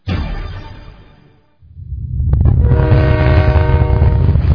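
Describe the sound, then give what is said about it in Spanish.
Quito metro train passing: a loud rail rumble fades to near silence, then a heavy rush swells back, with a sustained horn-like tone riding over the noise. “El Metro de Quito está pasando.”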